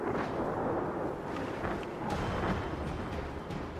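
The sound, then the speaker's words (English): A fire tornado approaches in a video game with a dense, roaring rush of wind-like noise and low rumble. It holds steady throughout, with faint crackling bursts scattered across it. “Wind flare coming in fast. Yeah, it's one of those cool weather tornado, fire tornado things.”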